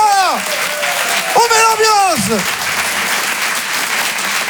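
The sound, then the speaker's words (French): A comedy club audience applauds loudly and continuously in a dense wash of clapping, while a couple of voices shout or cheer over it early on. “Je vous demande un tonnerre d'applaudissements, s'il vous plaît.”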